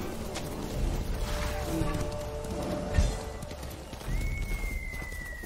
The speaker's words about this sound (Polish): Ciekawe, czy ten koń się kiedyś męczy,